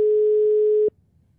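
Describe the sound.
Single steady telephone ringing tone on a call going unanswered, a clean sustained beep lasting just under a second before cutting off abruptly into near silence.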